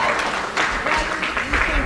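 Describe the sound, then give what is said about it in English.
Dense applause from a gathered crowd, loud and even throughout, with no clear gaps or peaks in the clapping. “Here's more of this applause. It's not appropriate.”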